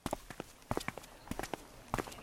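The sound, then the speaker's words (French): Footsteps of two people walking together in the street: faint, uneven steps falling in small clusters with short gaps between them. “Steve et Christelle marchent dans la rue.”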